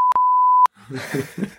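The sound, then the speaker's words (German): A censorship bleep covers spoken words in a German conversation: a steady, piercing electronic tone with a brief dropout near its start, lasting well over half a second before ending abruptly. Talk picks up right after it. “also ja, das piepen wir übrigens, was ich da gesagt habe.”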